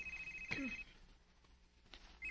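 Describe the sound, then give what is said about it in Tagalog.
A cellphone rings faintly: a thin, steady high electronic tone sounds at the start, breaks off, then returns at the very end, with quiet background noise in between. “Ang cellphone ni Renz. Naligo para ba siya da? Kinsa mo di kaning nanawag?”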